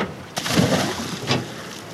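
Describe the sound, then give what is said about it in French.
Splashes as people wearing diving masks jump into the sea beside an underwater trail near a rock, two sharp bursts of water with churning, sloshing water between and after them. “Allez, on met les masques et on saute à l'eau. On va voir ce qu'on va voir.”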